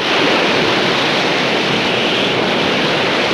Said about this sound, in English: the scene dissolves to a dark, stormy sea.